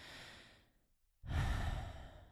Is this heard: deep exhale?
yes